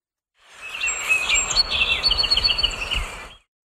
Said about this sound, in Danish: Det er lyden af en nordamerikansk sangspå, en lille brun fugl med et gråt og brunstribet hoved.